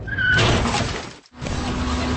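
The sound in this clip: A road crash with shattering glass from a televised road-safety spot: a loud burst of crashing, breaking noise, a sudden brief drop, then more harsh rumbling debris noise.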